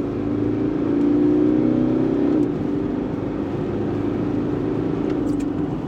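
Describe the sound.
A 2011 Toyota Prado GX diesel accelerates at full throttle, producing a loud, steady engine drone. A higher tone rises over it briefly and then cuts off partway through, and the heavy engine noise carries on alone.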